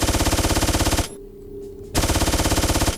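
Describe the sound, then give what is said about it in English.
A standard machine gun fires in a video game, with more damage but short range. Loud rapid-fire shots come in two long, evenly rhythmic bursts separated by a brief pause. “So I will show you now the other weapons we also have. We have the normal machine gun.”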